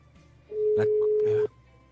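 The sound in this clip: A telephone rings back on an outgoing call: one steady, even-pitched tone lasting about a second. Voices talk over it before and during the ring.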